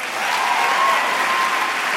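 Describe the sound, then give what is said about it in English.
An audience applauds long and loudly after Boston Mayor Menino's pledge of pay equity for women during a speech, with thick, continuous clapping at a steady, full level from start to finish. “In a night of standing ovations, that remark drew the longest applause.”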